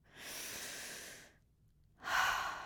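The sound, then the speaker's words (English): A person takes one deep breath, heard as two long, airy breath sounds split by a short pause, the second louder and stronger, with no talk. “just take a deep breath right now. One deep breath.”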